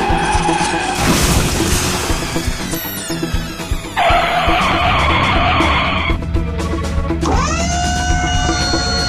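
Tires screech as a car skids to a stop during a chase, engine roar under several loud, sustained squeals that rise and hold in pitch, with no voices.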